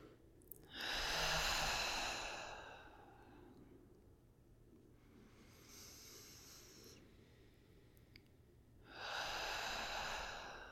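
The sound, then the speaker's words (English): Three slow clarifying breaths in a guided yoga session, in through the nose and out through the mouth. Each is a long, airy rush; the first and last are strong and the middle one fainter, with no speech. “take some clarifying breaths here, inhaling through your nose and exhaling out of your mouth. Take two more breaths here.”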